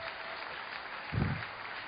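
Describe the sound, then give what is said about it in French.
Faint, muffled applause from an audience in a church following a Bible reading, a thin steady patter with a brief low thud near the middle. “Est-ce qu'on peut acclamer cette parole?”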